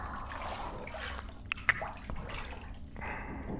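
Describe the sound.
Water dripping while someone soaks to the shoulders in a hot bath aboard a train: a faint watery background broken by two distinct, bright drips close together near the middle.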